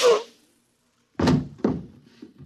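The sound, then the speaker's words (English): Gunshots from a radio drama: a sharp blast fading at the start, then after a silence two more loud, broad cracks in quick succession, each with a short rumbling tail. “And just one more shot for good measure, to make sure you're really dead.”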